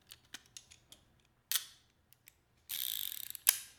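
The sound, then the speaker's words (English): A revolver being loaded, a bullet set into the chamber: a few small metallic clicks and taps, then a quick run of rapid ratcheting clicks ending in one sharp click, with no talk. “choose your bullet and place it in the chamber, please.”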